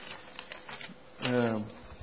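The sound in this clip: A stack of paper is handled, giving a few soft, faint rustles and brushes, and a voice briefly speaks over them.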